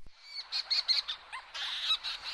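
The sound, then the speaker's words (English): Leach's storm petrels and fork-tailed petrels calling at night above a huge forest breeding colony of burrowing seabirds: many overlapping high, harmonic chirping calls in a dense, steady chatter. “Anderson from the University of Kansas recorded two kinds of birds, the leach's storm petrel and the fork-tailed petrel.”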